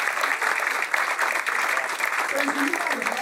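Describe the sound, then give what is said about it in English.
A quiz audience gives a contestant a round of applause, with brisk, dense clapping throughout and a voice talking over it near the end. “Give Sarah a round of applause.”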